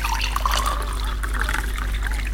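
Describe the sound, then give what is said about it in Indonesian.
Water poured into a glass for drinking, to take medicine with, a steady trickling splash full of bubbly gurgles, moderately loud and continuous over a low background hum. “Kakak, minta tolong ambilin air ya, adek mau minum obat.”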